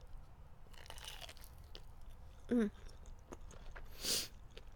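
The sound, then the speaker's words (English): Crunchy bites into a peach with wet chewing, two short distinct crunches standing out over a quiet background hum. “let me just take a bite of my peach again before I keep going.”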